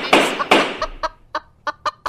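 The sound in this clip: A hen clucks in a room among people, giving a series of short, throaty clucks: two loud, harsh bursts first, then several softer, evenly spaced calls.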